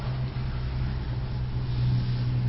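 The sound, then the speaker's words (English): Passing car traffic outside a Zen meditation hall during zazen, a continuous low rumbling wash, fairly faint and steady with no distinct separate events. “we've got the river of cars outside this endo that joins us and that we join in our zazen.”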